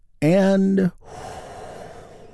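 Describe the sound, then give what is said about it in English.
A deep breath in and out during a group guided breathing exercise: a short voiced, sighing tone followed by a long, steady, breathy exhale that fades slowly. “Let's take another big, deep, healing breath right now, all together.”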